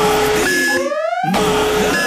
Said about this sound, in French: Cette alarme, c'est pour que je me souvienne que c'est le mardi malin chez Pizza Hut.